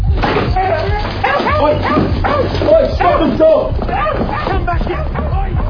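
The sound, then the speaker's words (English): A dog barks and yips in a shop in a rapid, continuous run of short, high, harmonic cries over a steady low hum. “Oi, stop the dog!”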